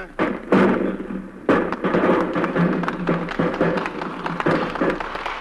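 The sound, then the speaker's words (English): A round of applause from a group of people, dense steady clapping of many hands, fairly loud throughout, with a few sharper thumps standing out. “What was that I heard, Miss Lee? Sounded like a round of applause.”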